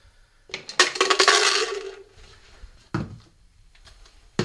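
Protein and dietary supplement powders are mixed up: a burst of rattling, scraping clatter is followed by one sharp clink and a few softer knocks.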